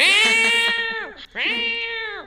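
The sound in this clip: A female cat yowls loudly twice, each a long, high, drawn-out meow, separated by a brief pause.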